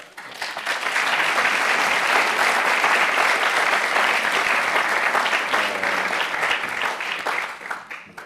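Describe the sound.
Warm audience applause welcomes the speaker at an evening architecture lecture, a dense, steady wash of many hands clapping that holds for about eight seconds before thinning slightly at the end.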